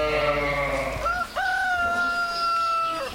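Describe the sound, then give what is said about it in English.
A rooster crows at Chestnut Farm in Hardwick, Massachusetts, a farm raising animals for meat. The single drawn-out crow is loud and harsh, with a clear tone that jumps up and then holds steady before trailing off. “Living on Earth's Lisa Song created that audio postcard of the inhabitants of Chestnut Farm in Hardwick, Massachusetts.”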